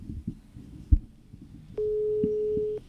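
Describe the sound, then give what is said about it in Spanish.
A single ringback tone sounds as a phone call is placed. Soft low thumps come first, then a steady mid-pitched tone holds for about a second and stops. “Listo, venga, marquémosle a ver si nos contesta.”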